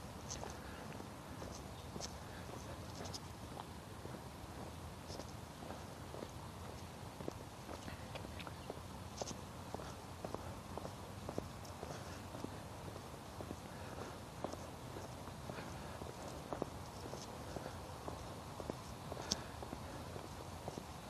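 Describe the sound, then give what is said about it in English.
Footsteps of a jogger running past, a long stream of many quick, regular footfalls heard at low level over constant background noise. “Jogger going by my blind side. Surprise!”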